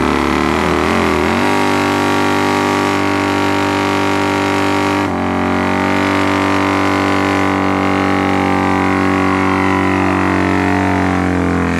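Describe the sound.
Harley-Davidson motorcycle engine revving: a loud, deep, throbbing rumble that holds steady and shifts pitch abruptly a couple of times.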